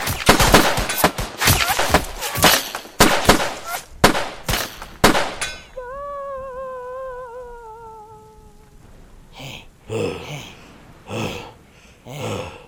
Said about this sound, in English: Who the fuck is shooting at us? Just shut up and return fire!